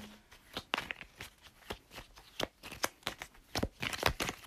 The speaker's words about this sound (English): As I shuffle the cards and we get a little bit closer to finding out your future.